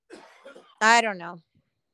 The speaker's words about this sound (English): Who's coughing? Was somebody coughing?